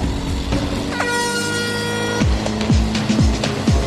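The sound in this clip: Race car engine on a drag run with a makeshift repaired drive shaft, eased off rather than at full throttle: a steady harmonic drone, then four quick revs that each sweep downward in pitch.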